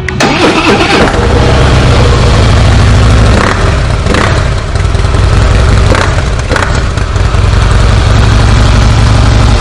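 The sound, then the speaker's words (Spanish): Harley-Davidson motorcycle engine running with a steady, loud, low rumble that stays continuous and even for the whole stretch, with no talk over it. “el sonido característico de la Harley, ¿verdad? Exactamente, es un pequeño monstruito.”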